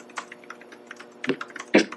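Keys typed on a computer keyboard into a Word document: a run of light, quick clicks with two louder presses near the end.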